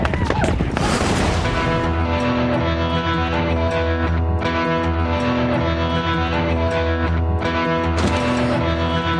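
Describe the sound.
A pistol shot cracks sharply near the start over sustained music that plays throughout.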